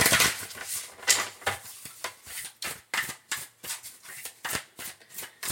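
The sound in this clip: Oracle cards being shuffled: many quick, crisp riffling and rustling bursts in an uneven rhythm, heard alone.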